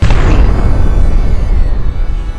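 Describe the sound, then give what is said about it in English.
A deep explosion sound effect standing for the Big Bang: a loud, rolling rumble that begins at full force and slowly thins out over about two seconds, with no voices. “All energy was crammed into a single speck, which exploded with unimaginable force,”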